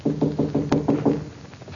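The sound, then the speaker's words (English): Knocking on a laboratory door: seven quick, evenly spaced raps, each a short hollow thud, followed by quiet. “Where do I knock?”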